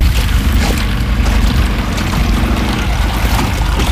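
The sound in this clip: A boat travels on water during a roughly ten-kilometre school commute, giving a loud, steady low rumble mixed with rushing water and wind noise that runs unbroken throughout, with no voices.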